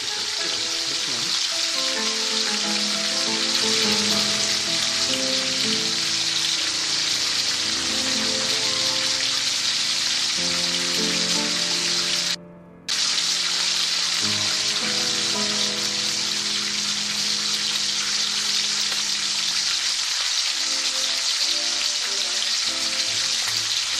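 Steady, loud sizzling of food frying in a pan, with classical music playing underneath and a brief break in the sound midway.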